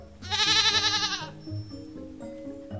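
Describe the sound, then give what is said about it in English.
A goat bleats once in a long, loud, quavering cry with a wavering tremble, followed by quieter low tones. “It all started with a goat.”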